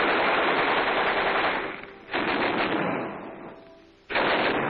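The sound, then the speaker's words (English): Machine guns being test-fired: loud, continuous rapid-fire bursts that fade off twice and then start again, giving three sustained stretches of dense gunfire. “We built more machine gun ammunition. Check and test fire all weapons.”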